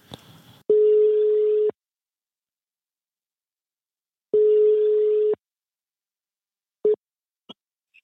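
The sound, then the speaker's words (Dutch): A telephone ringing tone sounds while a call is placed: two steady, mid-pitched tones of about one second each, separated by a long silence, then a few brief, faint blips and clicks. “wij zitten in de podcast en we zouden Anko Jansen bellen”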